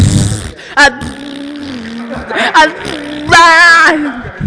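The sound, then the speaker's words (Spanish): A voice imitates fart sounds into a microphone for the Bebé Pedorro game, making buzzy, sputtering raspberry noises over a low droning tone, with vibrating bursts that are loudest near the end. “Y tienes que ayudarlo haciendo sonidos de punes con el micrófono. Entonces imagínense, así.”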